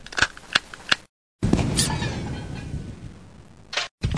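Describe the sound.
A gunshot sound effect: a few sharp, quick shots, then a louder blast with a long rumbling decay, then two more abrupt shots.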